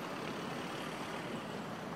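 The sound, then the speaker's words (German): A van's engine and road noise as it speeds off westward after its passengers climb back in: a steady, broad rumble that holds at an even level throughout. “Sie drücken schnell ihre Zigaretten aus, steigen wieder in den Transporter ein und brausen Richtung Westen davon.”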